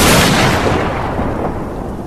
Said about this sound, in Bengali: ঠিক তখন বজ্রপাত হলো প্রচণ্ড বজ্রপাত